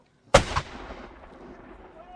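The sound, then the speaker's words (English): A warning gunshot fired from the bastions of a fort during a battle reenactment. One sharp, loud blast is followed by a quick second bump and a rumbling tail that fades slowly. “They fire a warning shot. And then another.”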